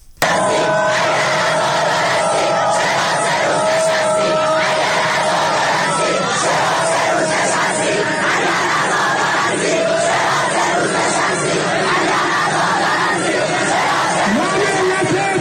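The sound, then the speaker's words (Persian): Protesting university students at Beheshti University chant slogans in a loud, continuous roar of massed voices that holds steady throughout. “این شعارها که میگه اگر عزادار هستید چرا سه روز نشستید، صدای دانشجویان معترض دانشگاه بهشتی بود”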